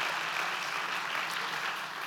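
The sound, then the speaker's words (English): A church audience applauds its pastors with dense, steady clapping that holds an even level from start to end, with no voices standing out. “Can you clap and thank them?”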